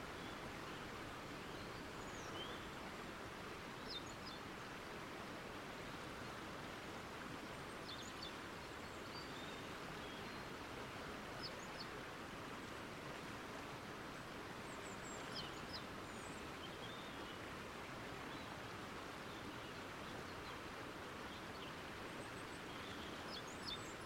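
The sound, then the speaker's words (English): A forest waterfall gives a steady, faint, even rush that runs without a break. Sparse, faint chirps from forest birds rise now and then above it. “enjoying the calming sounds of the nature, the forest birds and the waterfall”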